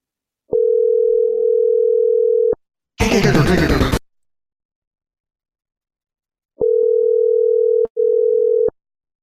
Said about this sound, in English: I think it's time for a prank phone call.